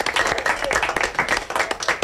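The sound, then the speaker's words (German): Clapping at a university of applied sciences as staff celebrate a satellite's first signal and solar panel deployment: many separate, uneven claps from a modest group, rising and falling in a loose, irregular rhythm. “Applaus gibt es aber eben auch zwindisch in der Fachhochschule.”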